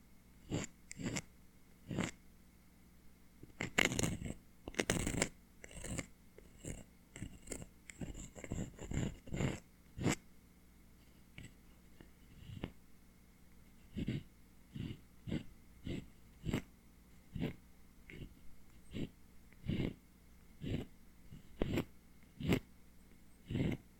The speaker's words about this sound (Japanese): 縁についた耳垢、薄く張り付いているな。円を描くように描いて、カリカリ。